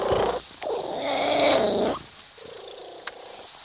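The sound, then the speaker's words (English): A domestic cat purring: a loud, rough rumble swells for about two seconds, then settles into a softer, steadier purr, with one brief click near the end. “That is the sound of a purring cat.”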